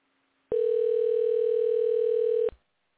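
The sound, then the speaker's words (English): Telephone dial tone while placing a call to a guest: a steady, unwavering mid-pitched tone that starts abruptly, holds for about two seconds, then cuts off, followed by a short click. “I'm going to be dialing my guest here in a second, and his name is Todd Killer Wilson.”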